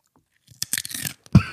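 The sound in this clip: Nibbling on a crunchy snack: a few small crisp bites and crackles, then one louder, sharper crunch at the end, heard alone without talk.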